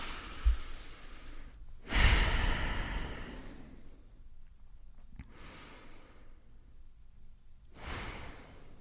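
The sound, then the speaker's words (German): Slow, deep breathing in and out during a guided relaxation exercise: a few long, soft breaths separated by quiet pauses, faint and unaccompanied by talk. “zwei, dreimal tief ein- und ausatmen.”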